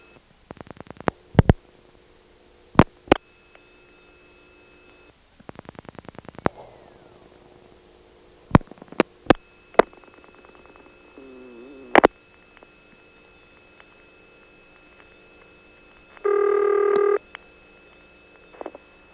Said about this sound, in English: And then when we get to the 1000 group, you'll hear it making its hunting noise as it connects us to intercept.